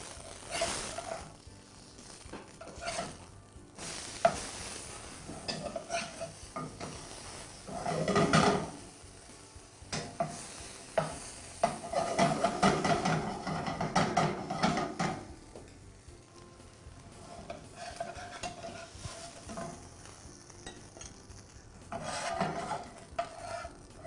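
Food frying in a pan while pieces are flipped over. A steady sizzle runs under irregular scraping and clattering bursts from the turning, with many bursts spread across the stretch and no talk.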